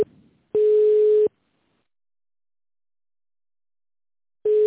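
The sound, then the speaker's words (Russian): Telephone ringback tone while a call is being connected. One steady mid-pitched beep lasts under a second and is followed by a long silence, then a second identical beep starts just before the end. “Сейчас попробую соединить вас с абонентом.”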